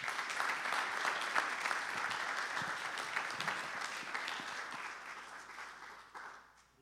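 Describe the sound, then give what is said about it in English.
An audience applauds to welcome a pastor at a church service, with dense, steady clapping that holds for several seconds and then fades at the end. “Would you guys put your hands together and welcome Pastor Mark Freeman.”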